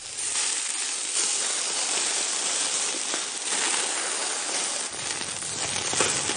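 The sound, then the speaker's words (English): A burger sizzles on a grill chef's hot plate, giving a steady, bright hiss with fine crackling that holds at an even level throughout, with no voices. “That's the sound of a burger sizzling on a hot plate”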